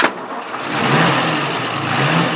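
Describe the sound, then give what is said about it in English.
A 1933 Frazer Nash six-cylinder sports car with single overhead camshaft and three carburettors starts up, a short sharp burst of cranking giving way to a loud, steady, throaty engine roar. “A 1933 Fraser-Nash sports car, a fossil-fuelled beauty. Six-cylinder, single overhead camshaft, three carburettors.”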